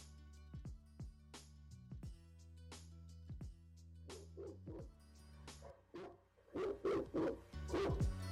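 Dogs bark and yip in many sharp, short bursts, some in quick pairs, growing louder and more crowded toward the end.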